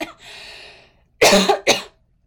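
Coughing from something stuck in the throat: a short burst of loud, harsh coughs close together, ending abruptly.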